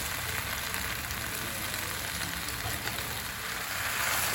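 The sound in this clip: Pasta sauce with chili and carrot sizzles steadily in a pan as macaroni is added. A broad, even frying hiss continues throughout with no talk.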